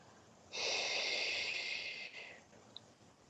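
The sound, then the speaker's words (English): A single long, deep exhale during a guided breathing exercise, heard alone as a soft, breathy hiss that lasts about two seconds before fading out. “Fill yourself with as much oxygen as you possibly can. And then exhale all the way down to your toes.”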